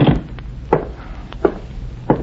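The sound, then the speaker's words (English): A bobby pin picking a door lock gives a few small, sharp metallic clicks and taps at irregular intervals over a low, steady background hiss. “Just testing my bobby pin on your lock.”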